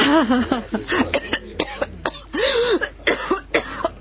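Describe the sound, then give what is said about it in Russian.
A prolonged, unbearable coughing fit: many harsh, loud cough bursts in quick succession, mixed with voiced, strained groaning sounds between the spasms. “Нестерпимый кашель продолжался минут пять.”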